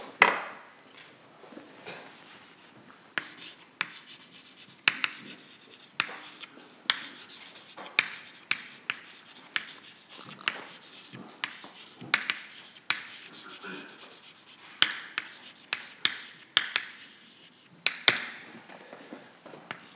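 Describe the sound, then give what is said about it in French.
Someone writes out a variance formula by hand: many short, irregular scratching strokes and light taps, fairly faint, following one another in quick bursts across the whole stretch. “Donc je vais écrire la variance”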